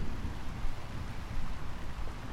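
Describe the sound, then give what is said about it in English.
Rain falls outdoors in a thunderstorm, a soft, steady, even hiss of drops with no distinct individual impacts. “have stepped outside into the rain and thunder, you might be able to hear”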